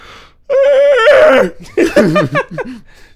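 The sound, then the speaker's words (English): A young person gives a long, voiced yawn, a sustained, wavering groan that lasts about a second and trails into broken, breathy vocal sounds. “That was a yawn. I'm not dying. That was just me yawning. This is how I yawn.”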